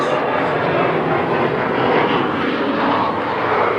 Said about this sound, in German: Warten wir erstmal den Flieger ab.